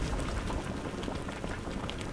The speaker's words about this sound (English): Stoking the fire to boil down that maple sap in Geauga County.